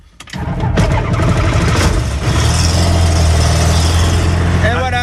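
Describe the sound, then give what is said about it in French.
A propeller aircraft engine starts up, cranking with a few sputtering catches before settling into a loud, steady roar. “on regarde qu'il n'y ait personne autour de la machine parce que l'hélice va se mettre à tourner. Attention, ouais, on y allez, va. Allez, ça démarre.”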